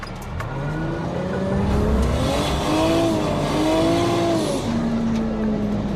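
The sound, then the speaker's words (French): A car drifts through a handbrake turn with the clutch pressed, its engine whining in wavering, rising and falling tones over a continuous roar of road and tire noise. “Je prends de la vitesse au dernier moment pour qu'elle ait de l'inertie. Je mets un petit coup de volant et frein à main tout de suite en appuyant sur l'embrayage.”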